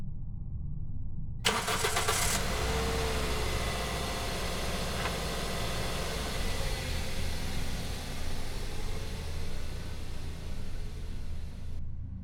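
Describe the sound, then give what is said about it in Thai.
A car engine starting for a fast drive home: a short burst of starter cranking, then the engine catches and runs in a steady, even drone for about ten seconds before cutting off. “ผมขับรถด้วยความเร็ว90กิโลต่อชั่วโมงตลอดทางกลับบ้าน”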